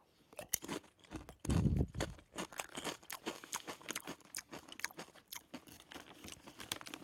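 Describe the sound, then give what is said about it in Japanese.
Crisp crunching of hard-fried potato chips with a garlicky, spicy vegetable soup curry flavour, a long series of sharp, dense bites and chews in an irregular rhythm, loud and without talk. “あこれはうまいですね堅揚げまあ私ポテチップス食べないんですけどこの堅揚げ感は”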